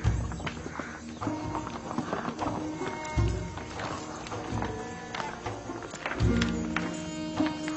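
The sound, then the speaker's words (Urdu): Hooves clip-clop steadily as a horse draws a buggy, with many even hoofbeats throughout and a busy tonal background. “یوزار safe, بگی خطرناک سواری ہے، اپنا خیال رکھنا۔”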